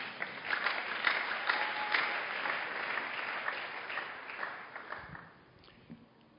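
Audience applause, a full burst of many hands clapping that stays steady for several seconds, then thins out and fades to a few scattered claps at the end.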